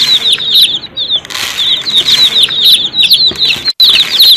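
Chickens at a coop: many quick, high-pitched peeping and chirping calls overlap in a busy, continuous chatter that is fairly loud throughout.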